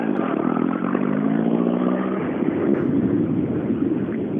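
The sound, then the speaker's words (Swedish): A Mercedes 190 car drives past with a loud, steady engine drone that holds throughout, its note shifting slightly about midway. “Gillar ni Mercer? Nej, inte jag. det är nämligen en 190 som kommer hit.”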